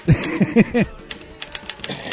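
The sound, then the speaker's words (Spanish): Keyboard keys click in a few sharp, separate taps after a short burst of voice at the start, light and irregular in rhythm. “Escuche mi teclado.”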